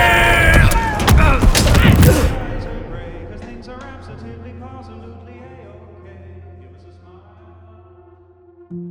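Bombs exploding in a loud, dense crashing burst lasting about two seconds, followed by a long fading rumble with faint metallic creaks and a low drone.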